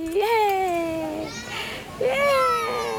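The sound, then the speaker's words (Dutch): A toddler boy's high voice at a small playground near home, where he plays on an airplane-shaped climbing frame. Two drawn-out, sing-song vocalizations, the second after a brief pause. “Een Zuid-Afrikaanse moeder speelt met haar peuter bij een speeltuintje om de hoek van hun huis.”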